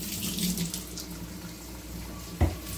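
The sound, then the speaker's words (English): Tap water runs steadily into a sink while hands are washed after handling eggs, a continuous splashing flow with a brief low thump near the end. “Now I'm going to wash my hands from the eggs.”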